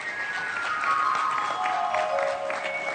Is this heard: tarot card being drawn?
no